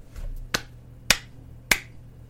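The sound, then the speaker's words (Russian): Hands clapping three times, each clap sharp and crisp, spaced roughly evenly about half a second apart, with no other sound around them. “хлопает в ладоши”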